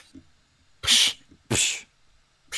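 Two loud, sharp sneezes in quick succession, each a burst of breathy noise, with another starting just as the sound ends.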